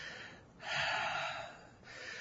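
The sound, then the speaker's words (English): A man gasps and catches his breath, one heavy, airy breath that swells quickly, holds for about a second, then fades back into a low hiss. “Fine. Just let me get my breath.”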